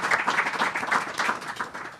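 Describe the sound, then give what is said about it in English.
Audience at the Commonwealth Club applauds a panel: steady, fairly soft clapping from many hands, rippling evenly from start to finish. “So let's have a round of applause for our panel, and welcome.”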